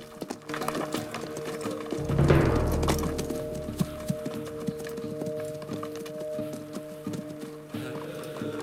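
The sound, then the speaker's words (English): Horses' hooves clop over loose rock on a slight incline as one horse briefly loses its footing. Many irregular, uneven hoof strikes, with a louder scraping rumble early on. “They come to a slight incline, and Pete's horse loses its footing on the loose rock, but manages to retain its balance.”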